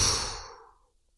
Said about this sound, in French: Et quand on peut plus tenir, on souffle.